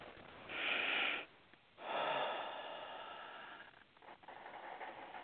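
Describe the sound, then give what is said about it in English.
Deep breathing during a guided affirmation session: two loud, airy breath rushes separated by a short pause, the second longer and fading into softer breath noise. “Just take a nice deep breath.”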